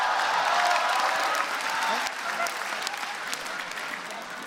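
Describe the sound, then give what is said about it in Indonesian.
Audience applause at a comedy show: dense, steady clapping fills the whole stretch at an even loudness and tapers only slightly toward the end. “Sekali lagi tepuk tangan buat Popon Carol. Luar biasa.”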